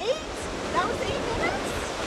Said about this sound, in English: Back in Kachemak Bay, after a few minutes of splashing, talking, and huddling, the cold plungers walk out of the water.